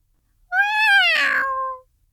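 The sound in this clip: A cat gives a single clear meow, a drawn-out tonal call of a little over a second that holds fairly steady in pitch before trailing off, heard alone against silence.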